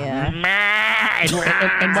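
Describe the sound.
Goats bleat loudly, a few wavering, nasal calls running close together with little gap, each quivering in pitch.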